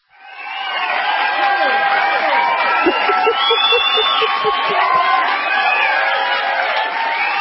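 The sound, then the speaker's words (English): A studio audience cheers and whoops. The loud wash of shouting voices swells quickly at the start, then stays sustained, with higher yelps and calls scattered throughout. “Oh, the studio audience. We need to get them some Red Bull or something.”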